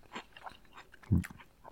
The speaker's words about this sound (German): Und nein, jetzt habe ich auf den Plopschutz geschmissen. Ja. ja. Das ist immer die Gefahr, beim Podcasten zu essen.